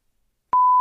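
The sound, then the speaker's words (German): An incoming call alert tone for a Teams call sounds as one steady, loud beep that starts abruptly after near silence and holds at a constant pitch until the end. “Ich krieg hier noch einen Anruf rein.”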